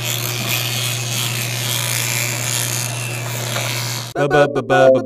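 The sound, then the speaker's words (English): Teeth brushed with an electric toothbrush make a steady buzzing hum with gritty scrubbing that runs unbroken, then stops abruptly as a voice starts speaking. “This is the sound of me brushing my teeth.”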